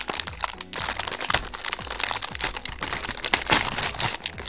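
The plastic wrapper of a limited orange-flavoured Tim Tam chocolate biscuit package is torn open, producing many sharp crinkles, cracks and crunchy rustles in an uneven, busy rhythm.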